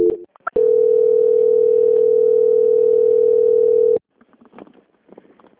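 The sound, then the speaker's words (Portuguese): A telephone call transfer tone on a bank's customer line: one loud, steady mid-pitched beep held for about three and a half seconds, then faint, scattered line noise. “peço que aguarde em linha, porque eu vou transferir o contato para o controle de qualidade, que dará continuidade à sua contratação. Boa noite. Boa noite. Transferência.”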